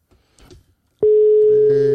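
A telephone call rings out unanswered: after a moment of faint noise, a steady, loud single-pitched ringing tone begins and holds to the end.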